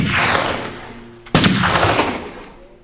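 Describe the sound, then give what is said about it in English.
Gunfire erupting around a wagon, bullets striking near its wheel: a dense roaring volley fading over about a second, then one sharp loud crack followed by another broad burst of shots that slowly dies away, with no talk. “The bullets cut between us, tore out a spoke of the wagon wheel.”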